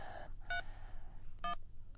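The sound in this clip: A mobile phone keypad gives two short dialing beeps about a second apart. Each bright, two-toned beep stands out over a steady low background rumble.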